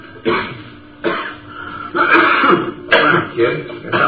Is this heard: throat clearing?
yes